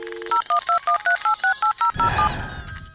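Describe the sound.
Touch-tone keypad beeps as a phone number is dialled for a call that goes unanswered: a quick, evenly spaced series of crisp dual-tone beeps, then a burst of rough noise with one short tone.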